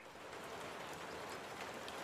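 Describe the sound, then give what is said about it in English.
Light rain: a soft, steady hiss of falling drops, faint and unbroken throughout, with no talk. “So for now, we can keep it to be something simple, maybe like a light rain sound”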